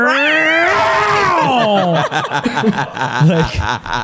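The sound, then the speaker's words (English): A voice imitates a cat's horrifying night-time scream with a long, wavering yowl that climbs and then slides downward, followed by talk and chuckling. “I would be woken up in the middle of the night by some just like horrifying sounding cat scream. You want to do it. You know you want to do it. I can't hit that octave, but it was similar to, it was like,”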